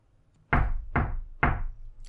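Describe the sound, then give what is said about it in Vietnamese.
Three soft, evenly spaced knocks on a door, each a short, dull thud with a brief decay, heard alone against quiet. “Ba tiếng gõ khẽ khẽ, nhẹ mà vững vàng. Kẻ gõ cửa không lễ độ, thong dong điềm tĩnh.”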